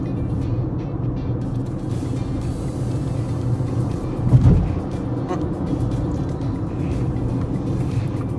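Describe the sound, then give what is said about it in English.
Car motors drone steadily while the vehicle drives, giving a continuous low rumble with road noise throughout and one brief, louder thump just past the middle. “There's a little bit of more of a noise from the motors than I'm used to.”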